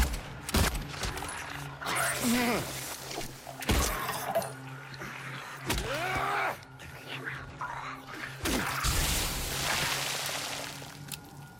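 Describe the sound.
Gunfire in a video game: a few sharp, loud shots crack out at irregular intervals over steady game background, while someone talks throughout.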